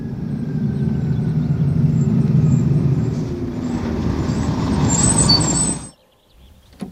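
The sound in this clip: A bus arriving at its terminal stop after rain: a steady low engine rumble holds and swells, then a sharp high hiss of air brakes sounds before the noise cuts off abruptly near the end.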